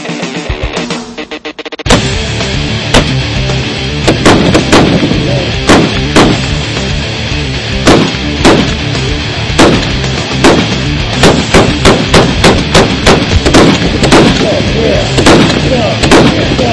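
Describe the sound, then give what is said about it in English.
Loud gunfire from a gun shooting U.S. Army issue tracer rounds: many sharp, cracking shots at irregular intervals, spaced apart at first and then coming in quicker clusters toward the end. “U.S. Army issue, won't be as spectacular as nighttime, but you want to shoot a couple of these? Absolutely. All right, we'll do that next. Never shot a tracer round.”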